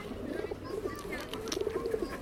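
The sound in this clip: Pigeons softly coo in low, rolling phrases that repeat over faint background noise.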